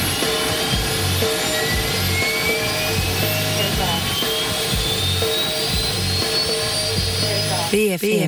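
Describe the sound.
An airplane takes off with a loud, steady jet engine roar, a high whine climbing gradually in pitch above it.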